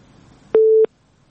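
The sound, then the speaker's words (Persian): A single telephone tone, heard after a listener's call to a live radio show dropped, sounds as one short steady mid-pitched beep over faint background hiss, then silence. “متاسفانه که تماس شکریه جون، فکر کنم قطع شده و امید که دوباره تماس بگیرن”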